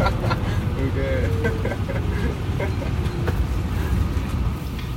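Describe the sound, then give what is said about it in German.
Bus cruising at 100 km/h on the Autobahn, heard as a steady low engine and road drone with faint voices underneath. “Verehrte Fahrgäste, wir fahren 100 Sachen die Autobahn.”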